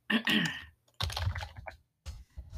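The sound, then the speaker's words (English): Keystrokes rattle on a computer keyboard as a word is typed into a website search bar, in three short clusters of crisp clicks separated by brief silences. “So in the top right, they have a search bar. I just typed in Massachusetts.”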